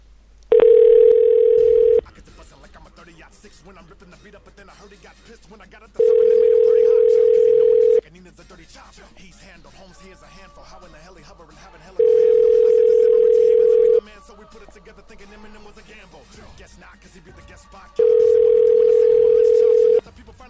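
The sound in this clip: A telephone line tone from a dialing machine plays as four evenly spaced bursts of a steady mid-pitched tone, each lasting about a second and a half, separated by longer pauses with only a faint background.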